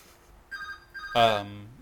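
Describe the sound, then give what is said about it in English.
A phone ringtone plays as steady electronic tones in two short bursts, and a person's voice then breaks in over it. “Somebody's phone.”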